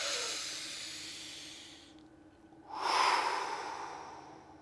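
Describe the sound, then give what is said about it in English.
A deep breath of long, airy, rushing breath noise that dips briefly to near quiet, then returns louder and fuller before slowly fading, with no talking. “Now take a deep, nice breath.”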